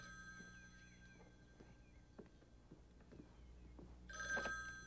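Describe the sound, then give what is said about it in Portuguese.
A telephone rings, a short bright electronic trill near the end over a low, steady background hum. “Por que eu sempre tenho que atender o telefone?”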